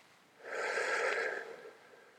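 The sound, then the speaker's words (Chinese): A deep breath drawn in during a guided mindfulness breathing exercise, a single soft, airy rush that swells for about a second and then tapers away, alone and fairly faint. “好，我们做三个深呼吸，吸进来。”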